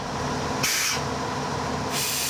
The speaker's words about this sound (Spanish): El motor delantero de esta máquina no mantiene el mínimo. Pues no lo sé. Lo tengo al ralentí.